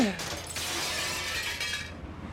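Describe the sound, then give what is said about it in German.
Window glass is smashed, a bright shattering burst followed by about two seconds of crackling, tinkling fragments that fade at the end. “Ich schmeiße euch die Fenster ein!”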